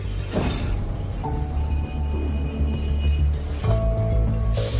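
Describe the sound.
A train rumbles steadily, with thin, high tonal whines of wheel squeal above the low roar, swelling louder near the end.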